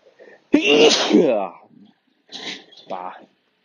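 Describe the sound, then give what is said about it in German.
A loud sneeze bursts out suddenly, from someone suffering from hay fever, followed by a short pause and then a few faint breathy sounds and brief vocal noises. “ich muss gleich nochmal niesen.”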